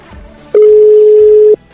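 A steady telephone ringback tone plays during an outgoing call to a restaurant in Moscow. It is one long, even, mid-pitched tone lasting about a second, with no talk over it.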